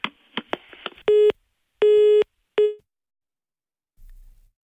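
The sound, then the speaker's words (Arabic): A telephone busy tone after a call-in line dropped: several short clicks, then three steady, even beeps, followed by silence. “نعم كان المكالمة انقطعت.”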